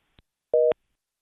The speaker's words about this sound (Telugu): అయ్యో, so call cut అయింది.